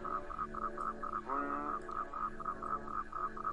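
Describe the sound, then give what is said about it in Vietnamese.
Frogs croak together in a stagnant pond in the morning. Many quick pulsed croaks repeat in a steady, even rhythm throughout, at a moderate level. “Thế rồi đám ếch nhái ở cái ao tù cũng đua nhau gào lên.”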